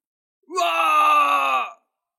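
A man's single loud, drawn-out cry of pain as his body is destroyed, rising at the onset and then holding steady for about a second before cutting off.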